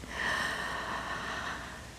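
One deep breath drawn in during a guided breathing exercise, a soft, airy hiss that swells quickly and holds steadily for about two seconds before easing off, heard alone.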